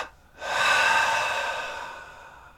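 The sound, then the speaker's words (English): A long, breathy rush of air through the nostrils during a muscle tensing and release relaxation exercise. It starts strongly, then slowly fades away with no voice over it. “Double inhale through the nostrils. Squeeze it up and release.”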